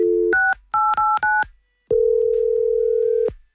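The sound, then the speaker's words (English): Telephone dialing as a call is placed to a mother: a short dial tone, then a few quick DTMF key tones in a rapid run, followed after a pause by one long, steady, loud tone. “Okay, I need to see if my mom's going to give me a gift. Hang on 1 second. Let's see if she picks up. It's so restricted. I'm going to try again.”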